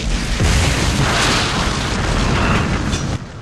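A starship's saucer-shaped command section explodes in a fireball, a film sound effect: a loud, sustained roaring blast fills about three seconds before cutting off abruptly, with no voices.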